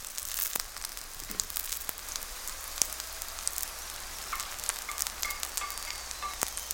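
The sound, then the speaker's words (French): Bacon lardons sizzling as they grill in a pan: a soft, steady hiss broken by many small crackles and pops, fairly faint and with no talking. “Le restant du lard aura quant à lui été méticuleusement découpé en lardons qui seront grillés, développant alors de puissants arômes”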